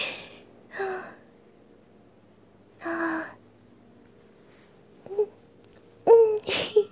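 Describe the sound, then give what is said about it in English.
Excited panting in short, breathy gasps spaced a couple of seconds apart, then quicker, voiced little gasps bunched near the end. Soft, with no talk. “I get all excited and happy, and then I can't help but kind of pant a little”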